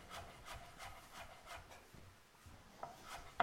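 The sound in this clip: A knife coarsely chopping fresh parsley, heard as a quiet, steady series of soft, evenly spaced strokes with no talk.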